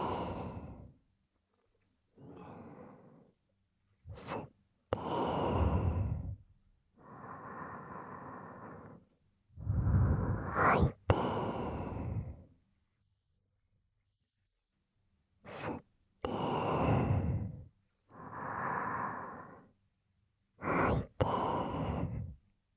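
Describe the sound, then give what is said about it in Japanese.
Slow breathing in and out during a guided relaxation exercise: many soft, airy breaths come one after another, separated by short silent pauses, with a few faint clicks between them. “ゆっくりと息を吸って、吐いて、”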